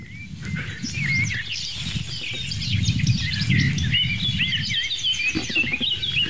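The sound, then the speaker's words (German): A blackbird sings outdoors, a string of varied, fluty whistled phrases heard softly over a steady low rumble. “Schöne Amsel. Amsel im Background.”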